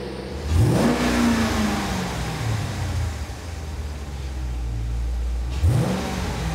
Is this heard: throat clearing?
no